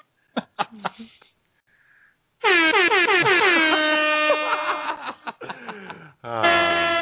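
A loud air horn blares in a long, sustained burst after a few brief clicks, cuts off for a moment, then blasts again at the end.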